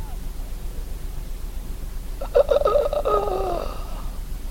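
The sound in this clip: A man's voice imitating a dying man's long exhale: a breathy, rattling voiced sound of about a second with a few catches at its start, over steady background hiss.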